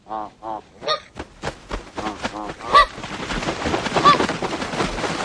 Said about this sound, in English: That's the sound of the film Winged Migration, a documentary that followed migratory birds.